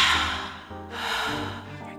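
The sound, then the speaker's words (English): A deep inhalation taken during a guided meditation, a soft airy breath that swells about halfway through and holds steady to the end, set against sustained tonal background music. “Inhale. Let's meditate.”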